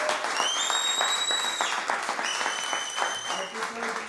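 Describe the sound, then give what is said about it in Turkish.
Audience applause at a public event honoring a teacher's contribution: sustained, dense clapping from a crowd with voices mixed in, holding steady and easing slightly toward the end. “Bir alkışla lütfen özellikle.”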